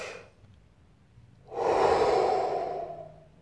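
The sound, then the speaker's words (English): A deep breath in and out: a short breathy sound at the start, a pause, then a long, loud, airy exhale that swells and slowly fades over about two seconds. “So yeah, I find that taking that deep breath, just a,”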